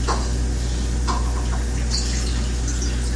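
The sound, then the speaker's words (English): Water is poured from one cup into another cup of the same kind, a loud steady splashing trickle that runs unbroken for about three seconds. “I'm going to pour it back in the other cup that's the same and see.”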